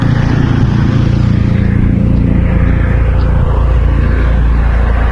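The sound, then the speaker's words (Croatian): A police helicopter flying over a city during a manhunt produces a loud, steady engine and rotor drone that holds constant throughout. “U potrazi za bjeguncem podignut je helikopter koji u trenutku ovog izvještaja već 2 sata nadlijeće šire područje grada.”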